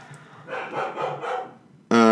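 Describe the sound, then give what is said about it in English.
Dogs barking excitedly in a quick series of four muffled, mid-pitched barks. “Dogs are going nuts. What in the world? Who let the dogs out?”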